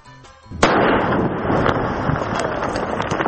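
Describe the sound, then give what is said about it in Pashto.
A landmine explodes after being detonated by police in the Maiwand district of Kandahar: one sudden sharp blast, then a loud, sustained rushing roar that continues to the end. “دا د هغه مین چاودنې غږ دی”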